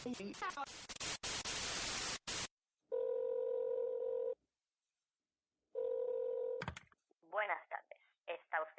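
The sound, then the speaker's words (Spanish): Telephone tones from a call placed to Apple's phone line: static opens, then two long, steady, buzzing tone bursts separated by a silent pause, followed by a voice speaking. “llamando Apple. Si quiere comprar un iPhone 4, pulse 1.”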